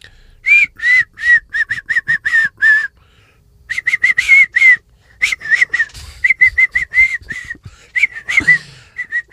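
A person whistles a tune in quick, clipped notes grouped into short phrases with brief pauses between them. The pitch is bright and clear over faint background noise.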